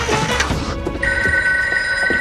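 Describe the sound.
A telephone ringing in an empty apartment, its bright, sustained electronic ring running through the latter half over a busy, noisy background.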